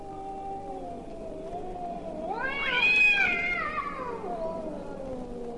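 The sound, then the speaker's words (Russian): Cats caterwauling on rooftops at night: a drawn-out, wavering yowl that climbs to a loud, shrill peak midway, then slowly sinks back to a lower, steady wail. “Звучит знаменитый кошачий концерт. Такие концерты происходят на крышах домов по ночам.”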